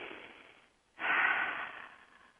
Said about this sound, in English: A few deep breaths. In a way, when you're breathing, you can run that through you, those breaths and the sound of the breath, as if they're music as well. You ready? Okay, let's breathe.